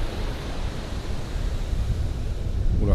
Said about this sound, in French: ça monte là. Ça doit être une marée montante. Et oui, je suis à l'Atlantique.